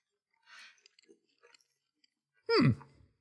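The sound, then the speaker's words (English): Someone quietly chews ancient Greek-style bread made with yeast, making soft, scattered crunchy clicks. A short, louder voiced murmur near the end falls in pitch. “I have not tasted any of my food, and I'm starving. Let's have a go at this bread.”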